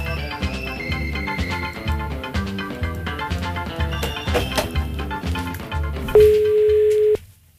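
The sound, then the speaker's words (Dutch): A single telephone ringing tone, steady, mid-pitched and lasting about a second, sounds near the end after rhythmic background music. “We gaan hem even bellen.”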